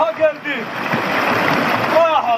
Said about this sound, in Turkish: Ankara'nın Haymana ilçesinde derenin su seviyesi yükseldi. Taşkınla birlikte mahalle suya gömüldü.